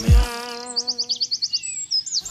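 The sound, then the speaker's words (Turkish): A pet bird at home gives a quick, steady run of many short, high, bright chirps, after a brief low thump at the start. “Kuş kuş kuş kuş. Kuş mu?”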